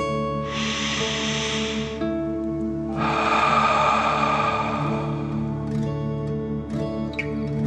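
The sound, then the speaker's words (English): A deep belly breath during a guided meditation: a long airy inhale, a short pause, then a fuller, rushing exhale, both set against a steady soft tonal drone with no speech. “let's take another deep dragon breath. Fill your belly, in and out.”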